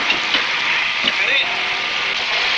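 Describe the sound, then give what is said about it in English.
Thrusters firing on a vehicle built to bore toward the Earth's core, a radio drama sound effect: a steady, loud hissing roar with faint warbling tones running through it. “Thruster's activating now. Steadying the throttles.”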